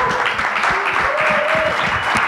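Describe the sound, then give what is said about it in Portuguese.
Audience applause greets a young woman invited up from the crowd at a festival event, a dense, steady wash of clapping that carries evenly through the whole moment without breaks. “Batamos uma salva palmas. De palmas para ela.”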